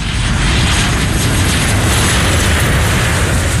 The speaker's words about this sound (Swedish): Extreme Airlines har alltså landat någonstans